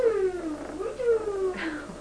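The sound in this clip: A pet cat mews in a few drawn-out, tonal cries, fairly loud and alone, with a brief higher squeak near the end.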